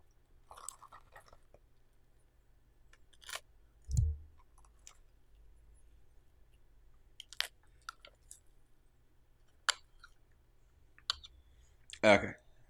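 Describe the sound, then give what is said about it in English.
A knife cuts into bars close to the microphone, making a few faint, sharp clicks and crunching scrapes separated by quiet gaps, with two heavier thuds standing out. “I have my knife out to cut into the bars. Oh, of course, of course. You know, I'm gonna get this good and close to the microphone so you can hear the cutting motion.”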